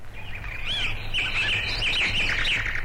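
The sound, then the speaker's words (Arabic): Birds chirping in a steady stream of high, quick tweets and short whistled trills that overlap one another, continuing without pause for the whole stretch. “مياو، ما أجمل هذه الطيور، أنا أريد أن أكون طائرا.”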